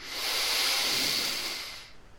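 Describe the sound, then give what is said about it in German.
Deep breath drawn in during a guided breathing exercise: one long, airy hiss that swells quickly, holds steady, then fades away over about two seconds, heard alone without talk. “Das Gleiche noch einmal. Tief einatmen”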